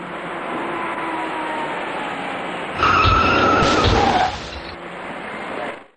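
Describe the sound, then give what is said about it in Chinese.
Tires screech loudly as a dark small car brakes hard on a busy expressway at night while failing to stop before a crash. Steady traffic rumble runs throughout, and a sharp squeal of about one and a half seconds rises above it. “从后面开上来的另一辆深色小客却未能及时刹住车，他把前面的银色小客给撞了出去”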